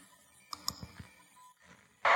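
Computer mouse clicking: a few short, faint clicks in quick succession over quiet hiss, then an abrupt burst of louder noise at the end.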